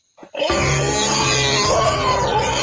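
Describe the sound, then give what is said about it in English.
A wild boar in a video game grunts: a brief rough grunt, then a loud, sustained, growling roar-like grunt with a deep harmonic tone that holds steady for about two seconds. “Is that a boar? Wild boar?”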